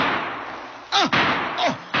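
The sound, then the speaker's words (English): Gunfire rings out in a radio drama as soldiers of a Union burial detail open fire at dusk: three sharp bursts over steady hiss, the first two trailing off in falling, whining tones. “A spy, probably. Men, open fire.”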